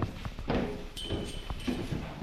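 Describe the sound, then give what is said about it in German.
Footsteps climbing the last few stairs, a series of steady footfalls over a constant noisy background. “Okay, die paar Treppen noch, dann sind wir oben.”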